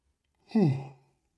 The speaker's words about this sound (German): Das ist der Nachteil an ungeschnitten. Da gibt es auch mal einen Gähner.